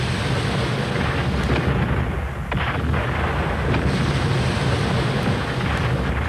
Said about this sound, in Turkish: Kaleden atılır bu toplar.